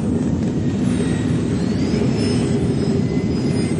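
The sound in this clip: Spaceship engine roaring as the ship lowers altitude to land, a loud, steady, broad rumble with a faint high whine above it, holding without a break.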